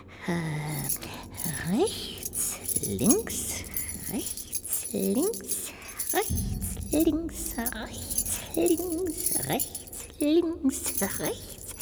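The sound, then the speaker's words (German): A bunch of keys jangling and clinking as they are counted off one by one, with bright metallic chinks recurring under steady talking throughout. “Am besten, ich zähle es an den Schlüsseln ab.”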